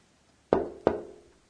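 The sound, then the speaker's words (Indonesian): Two sharp knocks on a door, a short pause apart, each hollow and resonant with a brief decay, heard alone against near silence. “Bukannya ini suara orang mengetuk pintu? Ya, suara ini juga diekspresikan sebagai tom-tom.”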